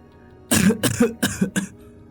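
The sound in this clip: Dry coughing from a woman in mud-spattered clothes, heard as four harsh, rasping bursts in quick succession, each short and breathy, with no other voices around them.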